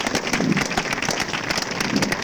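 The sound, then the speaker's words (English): An audience claps for Jesus during a church service, producing dense, loud clapping with a brisk, fairly regular rhythm that continues throughout. “Let us clap to Jesus.”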